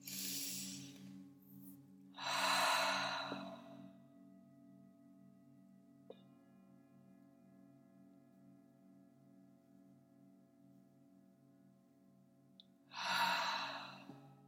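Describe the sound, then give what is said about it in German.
Three deep, breathy sighs taken near the close of a guided meditation: two come in quick succession, and the third follows after a long pause. Each is a short, airy whoosh over a soft, sustained tonal drone. “Du nimmst 3 tiefe Atemzüge.”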